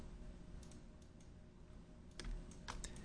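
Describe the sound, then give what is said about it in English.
Typing on a computer keyboard, heard as sparse, soft key clicks at low volume, with a quicker cluster of taps near the end. “So I'm just going to type first and second”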